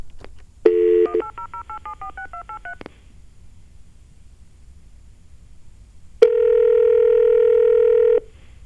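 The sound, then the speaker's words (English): Touch-tone telephone dialing: a steady dial tone, then a quick run of distinct key beeps at shifting pitches. After a pause, a long, loud, steady tone follows. “We're dialing it now.”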